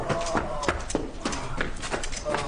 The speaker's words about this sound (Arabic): لا، لن أترجل عن حصاني. هيا أيها الحصان.